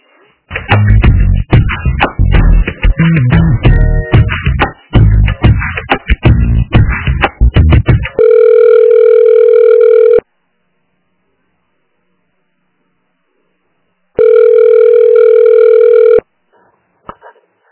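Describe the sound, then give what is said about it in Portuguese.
A telephone call rings on the line, giving two long, steady ringback tones of about two seconds each, separated by silence, after a noisy opening stretch. “Não, posso fazer uma ligação para ela.”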